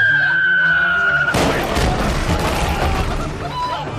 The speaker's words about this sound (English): And there is the whistle of a shell. Uh-huh. And it's getting louder. Cannonball! Take cover!